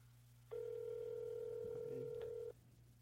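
A single ringback tone sounds on an outgoing phone call, a steady, even beep lasting about two seconds. It is faint and plays over a low, constant hum, with silence before and after it.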